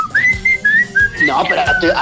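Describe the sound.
A person whistles a tune, a short melody of several sustained notes that move up and down in pitch. The whistling is bright and clear over a faint rhythmic backing with a low steady beat.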